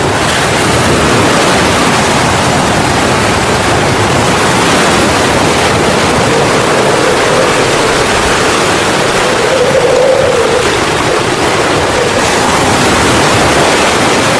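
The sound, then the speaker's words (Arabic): Storm at sea with waves tossing a small boat: a loud, steady roaring wash of wind and surf that fills the whole clip with no voices. “ما هذه العاصفة؟ تتلاعب بالزورق كما الأرجوحة.”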